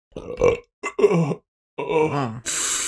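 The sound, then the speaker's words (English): A voice imitates a door burping as someone walks through it, making a few drawn-out, groaning belch sounds with wavering pitch, followed by a short hissing rush of breath. “he the door burps as you walk through it.”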